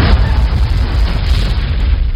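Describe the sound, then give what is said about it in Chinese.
A deep, loud rumbling boom as large rocks tumble down from a hilltop, a continuous heavy roar with no distinct separate impacts. “山头上砰砰砰一阵响，滚下很多大石头”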